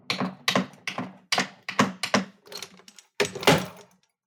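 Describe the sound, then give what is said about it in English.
Heavy keystrokes on a keyboard as someone types: a slow, uneven string of loud clacks, each with a thudding low end, ending in a louder cluster of strikes. No voices. “I just couldn't type it up fast enough.”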